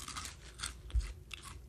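Crunchy chewing of a crouton-like Japanese snack, a few crisp crunches in steady succession with one louder bite near the middle, no talking.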